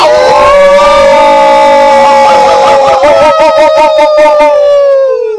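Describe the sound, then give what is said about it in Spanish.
A group of people howling together in imitation of a wolf pack: loud, sustained, wavering voices that slide slightly lower, turning into a pulsing, tremulous chorus toward the end. “Mira vos, son de manada de lobos, entre varios. Bien, se ve que hay un grupo ahí formado, ¿eh? Potencia. Bien, sí, ya tienen práctica, los chicos ya vienen aullando hace rato”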